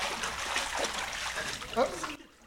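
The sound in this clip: Water splashes and sloshes during a baptism by immersion, with voices talking over the watery churn until it cuts off abruptly at the end.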